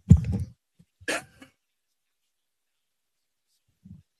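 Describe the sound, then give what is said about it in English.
A man coughs during a conversation about sports: a harsh, low burst, then a second shorter one a moment later, followed by near silence with a faint trailing sound at the end. “excuse me just a second while I cough”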